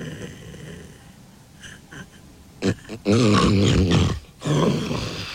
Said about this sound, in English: And that loud noise at the end was a snort he made as his brain told him it was time to wake up and take a proper breath.